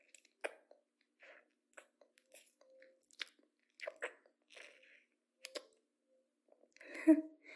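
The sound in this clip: Capri gum being chewed: sparse, quiet wet clicks and smacks at irregular intervals, with a slightly louder squishy burst near the end and silence between the chews.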